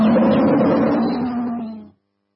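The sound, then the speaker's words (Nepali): A tiger roar sound effect in a radio station jingle: one long, rough, low growling roar that holds steady and then fades out after about two seconds. “गर्जन सधैँ बाघ झैं radio tiger 99.2 megahertz.”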